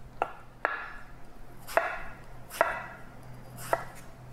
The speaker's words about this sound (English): But basically I'm just slicing apples.